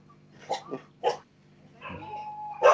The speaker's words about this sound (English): Excuse the dog barking.